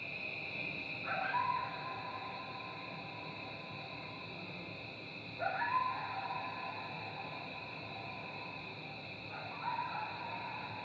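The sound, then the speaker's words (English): Faint coyote howls echo with a long reverb tail lasting several seconds. Three rising, wavering calls come a few seconds apart, each one trailing off slowly over a steady background hiss. “So a lot of it, it's about finding the coyote and recording it, but it's also recording the coyote in the right space.”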